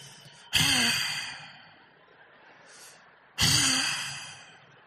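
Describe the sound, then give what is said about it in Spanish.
A voice imitating the heavy, angry breathing of a man lying in bed beside his partner after a quarrel: two loud, forceful huffing exhales a few seconds apart, each tailing off, with softer breaths between and no words. “Se respira más fuerte, así. No hablan, no hacen ruido, pero él, así respira él.”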